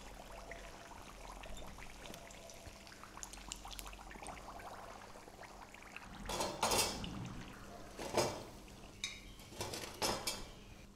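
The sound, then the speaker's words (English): Utensils clink against a pan and plate as fried samosas are lifted out of hot oil and set onto a plate, with a few sharp clattering bursts over a steady low sizzle. “We have to fry it for just a minute more and then we have to take it out to the plate. My samosas are fried. I am to take them out now.”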